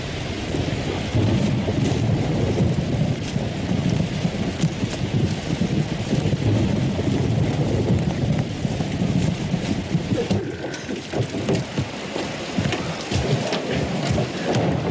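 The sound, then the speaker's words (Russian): A heavy nighttime downpour with thunder: a dense, continuous roar of rain with low rumbling underneath, loud and steady for the whole stretch. “Ночь. Ливень.”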